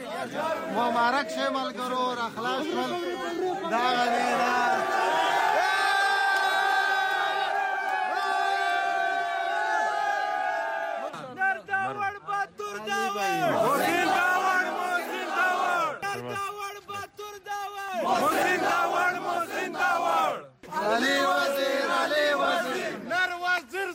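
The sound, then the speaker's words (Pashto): Hundreds of Pashtun Tahafuz Movement supporters chant emotional slogans in unison to welcome released leaders outside Peshawar's Bacha Khan airport. The shouted chorus is loud and continuous, rising and falling in rhythmic surges with brief dips between phrases. “د پښتون تحفظ موومنټ په سلګونو پلویانو د دوی هرکلی په دې جذباتي غږونو سره وکړلو.”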